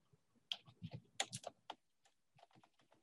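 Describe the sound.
Typing a message on a computer keyboard: many quiet, irregular key clicks in uneven bursts with short pauses between them. No voices are heard.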